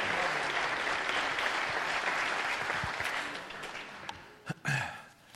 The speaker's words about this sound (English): Put your hands together. Give him a real good lakeside welcome as he comes.